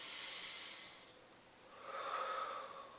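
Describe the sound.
Slow breathing, with two long, airy, hissing breaths separated by a quieter pause, alone and fairly soft.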